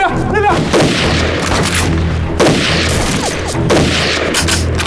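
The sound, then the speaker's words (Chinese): Heavy gunfire from pirates: a dense, loud barrage of shots and booming blasts that continues throughout, with stronger bursts at intervals. “海盗！这海盗也开枪火， 你是不是枪？”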